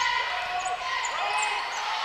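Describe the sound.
Basketball dribbled on the court during a women's game, with a few bounces heard under play-by-play commentary.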